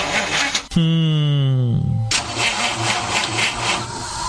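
A car engine starts: the starter whines with a slightly falling tone for about a second, then the engine catches and settles into a steady, loud idle that runs to the end.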